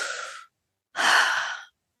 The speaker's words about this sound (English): Okay, let's take a breath in.